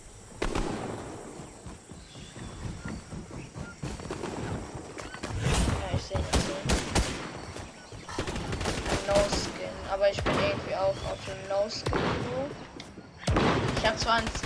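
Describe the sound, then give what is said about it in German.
Gunfire rattles in Fortnite gameplay: many rapid shots and bursts crack steadily throughout, while a player talks over the shooting. “Mich wird geschossen.”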